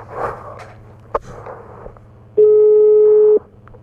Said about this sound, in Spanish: Está llamando. A ver, ¿dónde está el tono?